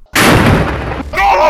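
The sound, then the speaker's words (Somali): Heavy gunfire from fighters shooting at soldiers in combat video footage, a loud, dense and sustained burst of shots that fills almost the whole clip with only a brief dip near the end. “waxaa video lagu arki karaa dagaalyahanada muqaamada Falastiin oo rasaas oo dhaka qaadaya xubno ka tirsan askarta Yahuuda”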